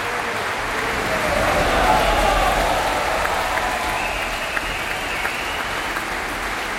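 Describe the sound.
An enthusiastic concert audience at the Opéra Berlioz applauds the Orchestre National de France during its bows. The clapping is a dense, steady wash that swells a little and holds strongly throughout.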